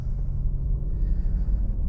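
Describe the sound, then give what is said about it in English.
Low, steady engine rumble from an old Porsche 911 being driven, a continuous deep drone with no voices. “And I'm out for a little run in the old, good old 911.”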